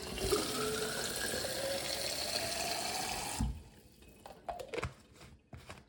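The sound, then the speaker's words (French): Tap water rushes in a steady, hissing stream into an ÖKO filter water bottle for about three and a half seconds, then cuts off, leaving a few faint knocks and drips. “Ensuite, je revisse mon filtre. Je remplis à nouveau ma gourde.”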